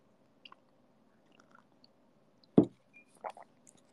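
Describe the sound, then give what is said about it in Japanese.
Someone chewing hamburger steak makes soft, sparse mouth clicks and squishes with a few quiet gaps, broken by one louder, sharper bite and a couple of moderate chews near the end. “ハンバーグ食べます。”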